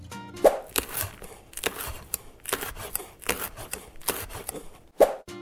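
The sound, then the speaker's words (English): A knife cutting an onion makes many crisp, irregular chopping taps with short gaps between them, fairly quiet and with no talk. “Onion. You're cutting onion.”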